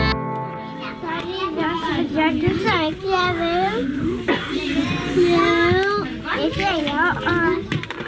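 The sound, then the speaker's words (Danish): Children playing in a kindergarten room in the late afternoon, with many high-pitched young voices chattering, calling and squealing over one another in a loud, continuous babble. “Det du kan høre her er lyden af en børnehavestue sidst på eftermiddagen.”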